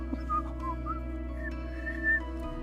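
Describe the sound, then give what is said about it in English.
Casual whistling of a short, wandering tune during a tabletop role-playing game: several brief melodic notes at moderate pitch over a low, steady hum, with no talking. “just whistling, kind of walking off to the other side”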